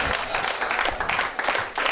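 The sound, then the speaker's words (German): An audience at a live comedy show applauds: brief, dense clapping that holds steady and fairly quiet, with slight surges in loudness. “Ja, das müssen wir applaudieren.”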